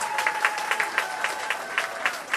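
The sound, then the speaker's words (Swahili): Audience applause for politician Zito after his speech at a political party branch opening meeting, brisk, fairly loud clapping with regular accented peaks throughout. “Jamani, hebu tumpigieni makofi Mheshimiwa Zito”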